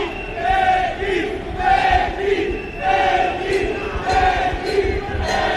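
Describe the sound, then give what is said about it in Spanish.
Cyclists protesting outside a church chant slogans as a crowd. The loud chanting comes in repeated rhythmic phrases, rising and falling with each call. “escuchen ustedes el ambiente porque hay una protesta de ciclistas que cuando pasan acá frente a la iglesia realizan consignas. Escuchen.”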